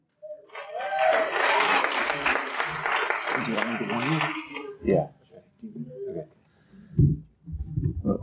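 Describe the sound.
Audience applause welcoming the second speaker at a recovery meeting lasts about four seconds, then fades as talking and a few short vocal sounds take over.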